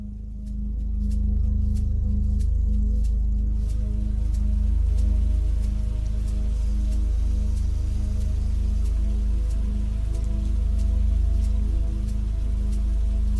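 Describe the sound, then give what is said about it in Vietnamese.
Heavy night rain pours onto a road, window glass and rooftops as a dense, continuous hiss with a deep rumbling undertone and scattered sharper drip impacts, swelling in the first second and then holding steady. “Cơn mưa đêm tầm tã trút xuống đến cả ngàn tấn nước. Âm thanh ù ù của những hạt mưa bị vỡ tan khi va đập xuống mặt đường, va đập lên những ô kính cửa sổ, lên những mái nhà”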